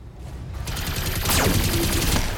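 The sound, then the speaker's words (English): Small laser and machine gun fire from a mech combat video game: a loud, dense rattle of rapid bursts, with a sharp zapping tone that sweeps steeply downward partway through. “Small laser and machine gun fire.”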